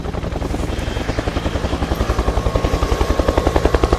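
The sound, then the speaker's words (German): A helicopter taking off, its rotor beating out a rapid, steady chop of many pulses over a low engine drone, growing louder toward the end. “Zwanzig Minuten später startete der Helikopter mit neuen Piloten und flog in die Wildnis, immer der Piste nach, Richtung Babylon.”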